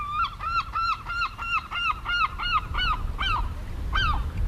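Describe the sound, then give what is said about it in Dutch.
A juvenile herring gull gives begging calls: a rapid series of high, thin, arching cries repeated many times in an even rhythm, then a short pause and a couple more calls. “En dat hoge geluid, dat is een van de jongere vogels die daar een beetje bedelend roept. Die bruinige daarachter, die een jong, waarschijnlijk van die zilvermeeuw.”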